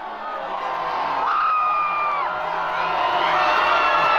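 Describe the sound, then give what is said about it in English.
Excited hockey fans in a bar cheer their college men's team's tenth NCAA championship win, a dense, loud crowd roar with whoops and yells rising over it and continuing without a break. “It's the sound of excited hockey fans as the University of Denver's men's hockey team won their 10th NCAA championship Saturday.”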